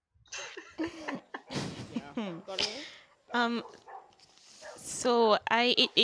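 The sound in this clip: A dog barks a few times beneath lively conversation and laughter, its short yaps mixed in with overlapping voices.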